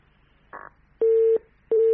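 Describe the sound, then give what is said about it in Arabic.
Telephone tones follow a caller's line being cut off: a short crackle, then two loud, steady low beeps separated by a brief gap, like a busy or disconnect signal. “انقطع اتصال دانا ولا هذا اتصال بهاج؟”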